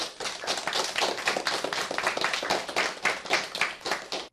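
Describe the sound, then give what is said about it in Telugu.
An audience claps for singers after a song at a school event. Many hands make a steady, fairly quiet patter of applause that lasts throughout. “చాలా చక్కగా గానం చేశారు కదా, మరి వారికి చప్పట్లు కొడదామా?”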